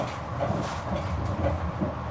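The Exodus Express train runs on its rails with a continuous low rumble and a steady mechanical roar, without clear separate wheel clacks.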